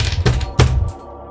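Fists pound on a door in a few heavy, dull thuds that come in quick succession, then give way to quiet.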